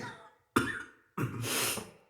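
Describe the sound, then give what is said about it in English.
Two coughs from a person: a sharp first cough, a brief pause, then a longer, rougher, raspy second cough that trails off. “A little laudanum for the cough.”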